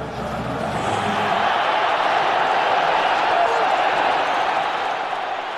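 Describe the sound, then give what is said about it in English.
A big crowd of Mexico's football fans at the World Cup, reacting to news of another match result, cheers in a loud, continuous roar of many voices that holds steady throughout. “That is the sound of Mexico's fans learning that South Korea had beaten Germany in their match.”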